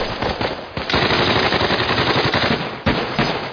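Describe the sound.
Loud, sustained machine gun fire opens on command during an infantry training demonstration. Dense, rapid bursts run almost without a break, with brief pauses near one second and near three seconds.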